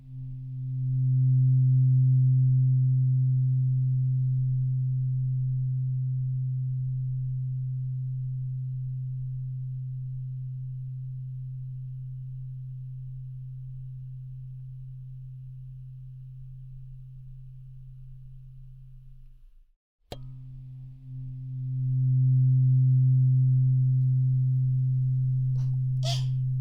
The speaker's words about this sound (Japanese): 心が落ち着く心地いい音、音叉の音が気持ちいい